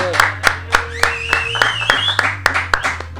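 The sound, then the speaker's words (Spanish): Clapping in a studio as a band is welcomed, many even, rhythmic claps at a steady pace over a constant low hum. “Un aplauso, vámonos chicos.”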